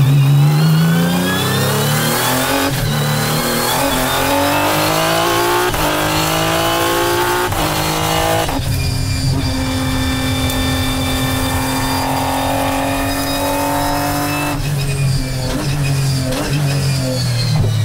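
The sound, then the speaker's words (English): A six-cylinder race car engine revs hard and loud on its own, climbing in pitch again and again with short breaks at the gear changes, a harsh, steady roar throughout. “I'm sure the fans on the hill will appreciate the sound, appreciate the work on how much power we're getting out of it, 6-cylinder.”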